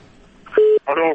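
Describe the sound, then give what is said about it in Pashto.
A brief steady telephone tone sounds as a listener's call drops during a radio phone-in. The single mid-pitched beep is followed by a voice. “سوري، متاسفانه تماس از شنونده ما قطع شد.”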